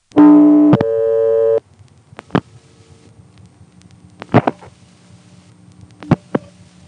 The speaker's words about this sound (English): Let's dial a Montrose supervision test.